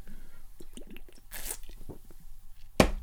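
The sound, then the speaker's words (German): Someone takes a small sip of a drink: faint wet slurping and mouth sounds, a brief soft hiss in the middle, and one sharp click near the end. “So, jetzt trinke ich hier noch einen kleinen Schluck.”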